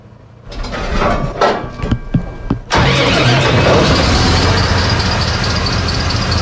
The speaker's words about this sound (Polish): To jest pompa Global Pump, która jest wyposażona w silnik diesla w układzie V.